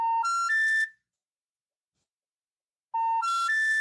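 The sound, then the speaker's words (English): A US telephone special information tone sounds as three short, steady beeps stepping upward in pitch. The sequence plays twice, separated by a couple of seconds of silence. “That's a United States treble signal that all telco companies use.”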